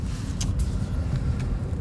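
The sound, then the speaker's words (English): Steady low rumble of a car being driven on a work trip to San Diego. It is continuous and even throughout, with a faint airy hiss above and no voices. “I'm driving to friggin' San Diego for a work trip, no big deal.”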